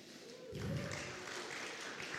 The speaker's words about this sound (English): Come on, she's more awesome than that. Give her a better round of applause.